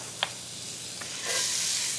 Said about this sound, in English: I've got some butter going in 2 separate iron skillets. So I'm gonna add 1/2 the onion to each one,